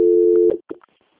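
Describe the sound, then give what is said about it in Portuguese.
Telephone line tone during a call transfer: a steady mid-pitched tone holds for about half a second, then cuts off abruptly, followed by a couple of short, fainter blips before silence. “peço que a senhora aguarde linha que eu vou transferir para um controle de qualidade, tá?”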